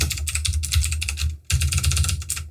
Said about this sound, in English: banging on the keyboard